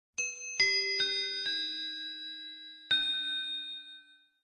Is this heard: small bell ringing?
yes

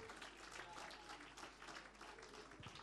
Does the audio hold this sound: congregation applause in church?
yes

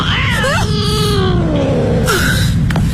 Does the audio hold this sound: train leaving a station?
no

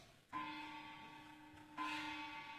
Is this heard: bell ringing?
yes

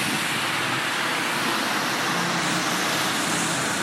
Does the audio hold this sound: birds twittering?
no

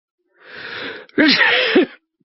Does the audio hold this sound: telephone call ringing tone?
no

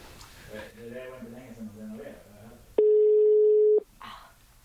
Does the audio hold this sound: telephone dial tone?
yes

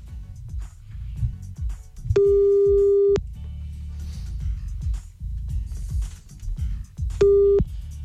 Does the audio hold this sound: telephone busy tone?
yes

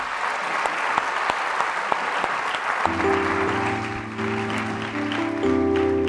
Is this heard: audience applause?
yes

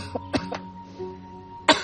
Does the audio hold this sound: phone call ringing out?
no

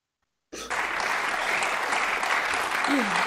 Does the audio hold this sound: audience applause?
yes

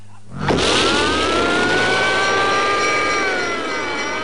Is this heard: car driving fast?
yes

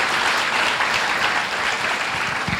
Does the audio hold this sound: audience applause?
yes

